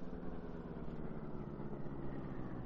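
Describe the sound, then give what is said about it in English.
A car drives slowly into an alley with its lights off, its engine giving a steady, even, low rumble that neither surges nor fades, with no voices over it. “Well, there's the corner we want. Turn off the lights and drive up into that alley.”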